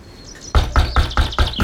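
Someone knocks on a door with six quick, evenly spaced, sharp raps in a steady rhythm. They are loud and come after a brief quiet start.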